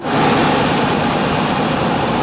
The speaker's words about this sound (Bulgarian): Централна ЖП гара, четвърти коловоз. Сваряваме билета. Влизаме в новата мотриса. Пътуваме от София до Горна Баня.